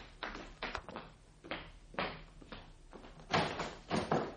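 A door being opened at a home for arriving guests: a few soft thuds and knocks from the door and latch in quick sequence, at moderate loudness.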